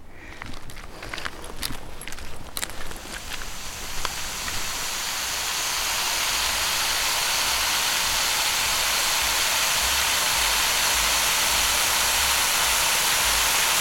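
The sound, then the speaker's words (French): Running water rushes as a broad, steady hiss that swells and then holds loud, preceded by a few sharp clicks and steps in a quieter opening. “C'est de l'eau.”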